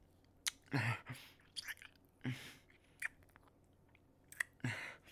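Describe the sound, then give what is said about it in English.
Mouth nibbling and biting sounds: a series of soft, wet smacks and short crunchy bites at irregular intervals, quiet and with no talk. “Little nibbles. Bites here and there.”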